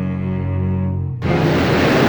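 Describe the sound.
A swirling water whirlpool sound effect from a fantasy audio drama: a sustained tonal drone cuts abruptly into loud, dense rushing water noise that churns steadily to the end.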